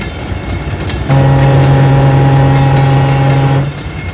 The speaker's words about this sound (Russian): коричневых грузовых вагонов. Кабина локомотива. Машинист устало поворачивает ручку хода.